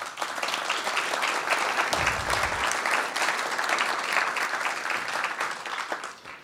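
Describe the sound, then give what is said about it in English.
An audience applauds to welcome election candidates from New Zealand First, Labour and the Green Party at a meeting: sustained, dense clapping for several seconds that thins out at the end. “So welcome to all of them. Let's give them a hand.”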